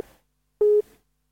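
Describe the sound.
Telephone busy tone after a dropped call: one steady, mid-pitched electronic beep of about a fifth of a second, loud and alone, following the fading tail of an earlier beep and ending in silence.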